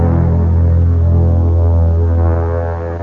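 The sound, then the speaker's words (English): A steady, buzzing hum of shaving as a mustache is shaved off, holding constant throughout and tapering slightly at the end. “Oh, I see you're still shaving. Yes, this is extremely important and symbolic.”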